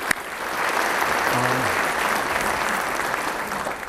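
Audience applause for forum hosts, a dense and even clapping that stays steady and fairly loud for the whole stretch.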